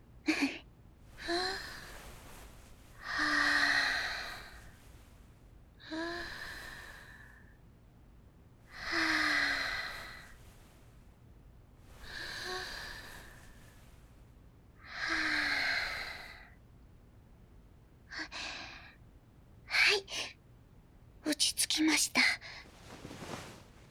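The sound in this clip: Deep breathing, soft and breathy: a series of slow, drawn-out inhales and exhales spaced a few seconds apart, then quicker, shorter breaths toward the end, all close and quiet.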